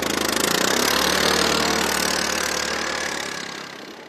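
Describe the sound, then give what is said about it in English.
A snow trail grooming machine's engine runs with a loud, steady, rough rumbling drone that holds constant and then eases slightly toward the end, with no voices. “when our trail crosses a Nordic ski trail, a grooming machine approaches. It slows, and the groomer gives us a piercing stare.”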